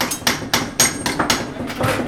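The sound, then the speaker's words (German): Hammer blows ring out at workbenches in a training workshop for heating installers, where apprentices join and bend pipes. Bright metallic strikes repeat in a steady, fairly even rhythm, loud and clear, with no talk. “Hier wird an Arbeitstischen gehämmert und gefeilt.”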